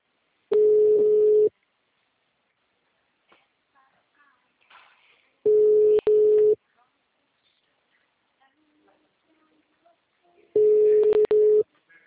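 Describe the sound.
Telephone tones mimicking a wrong-number call: three loud, steady mid-pitched tone bursts about a second long, spaced several seconds apart, the middle one briefly broken, with faint scattered sounds between them.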